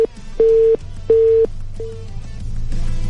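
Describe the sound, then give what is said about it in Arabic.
A telephone busy signal sounds after a call drops: steady low-pitched beeps repeat in an even on-off rhythm, a few pulses in all, over a faint low hum. “ألو. يبدو أن انقطع الخط.”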